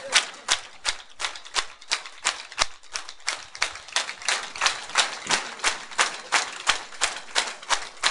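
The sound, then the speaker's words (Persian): A crowd claps hands in rhythm at a religious gathering. Many sharp, evenly spaced claps keep a steady, brisk beat the whole way through. “ناز قدم های آقا ابوالفضل العباس یه کف مرتب و جانانه و زیبا بزنید، شل کف میزنید.”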